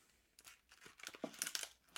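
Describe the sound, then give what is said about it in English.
Faint crinkling and tearing as a Batman toy package is ripped open, a series of short rips and crackles that grow busier and louder toward the end. “I'm just gonna rip it open.”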